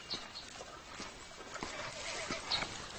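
Faint hoofbeats of a fine Ujimqin horse, a few soft, irregular clops over a low, noisy background.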